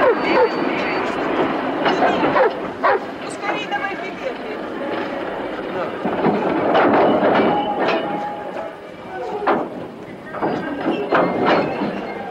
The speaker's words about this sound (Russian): Повторяю, скорый поезд, Турик, Москва, прибывает на верный берег.